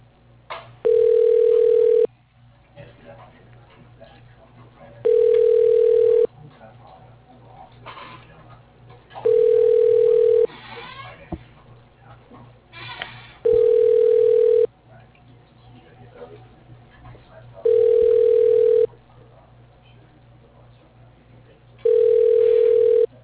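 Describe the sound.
A telephone ringback tone sounds while a call is transferred: six identical steady beeps, each about a second long, repeating at even intervals of roughly four seconds over a faint low hum.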